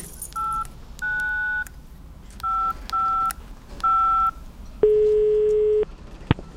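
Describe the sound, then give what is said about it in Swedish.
A touch-tone phone dials a number: five beeping keypad tones of uneven length, then a longer, lower steady tone and a final sharp click. The tones are clear and there is no talking. “Jag måste ringa henne.”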